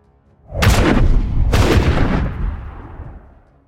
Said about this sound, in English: The rocket unleashed its fury on the rocky formation where Usha was positioned, exploding with concussive force. It shattered rocks and sent chunks of debris flying in all directions.